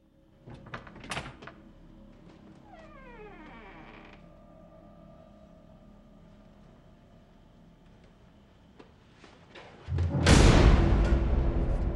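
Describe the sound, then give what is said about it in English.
A door to a room creaks open with a long, drawn-out groaning creak, preceded by a few faint knocks and clicks; near the end a sudden loud, sustained rush of noise takes over. “He opens the door to the room and peers down the corridor.”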